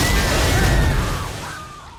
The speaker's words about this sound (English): only for a shark to jump out of a tank and eat him.